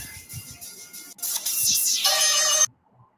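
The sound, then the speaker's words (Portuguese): A phone ringtone sounds for an incoming call: a bright, musical electronic tone that swells for a couple of seconds, then cuts off abruptly into silence. “Mais uma ligação telefônica. Mais uma ligação.”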